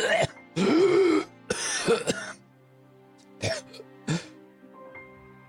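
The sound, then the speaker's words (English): A voice acts out choking and coughing: two longer strained, gagging bursts followed, after a pause, by two short sharp coughs, each sound separate against a quiet background. “He hits the ground with a thud and chokes and coughs and”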